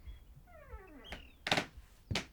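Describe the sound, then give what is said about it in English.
A door opens with a wavering creak that slides downward in pitch, followed by a soft thunk and two heavier thuds that fit footsteps across creaky floorboards. Everything is fairly quiet. “The door opens and footsteps traipse across the creaky floorboards.”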